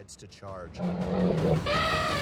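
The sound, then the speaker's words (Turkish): An angry, aggressive elephant searching for water in a river delta gives low rough rumbling calls, then a loud brassy trumpet blast near the end, with voices around it. “Su arayışı onları tehlikeli bir yola sokuyor. Daha önce rastladığımız hiçbir fil bu kadar agresif değildi.”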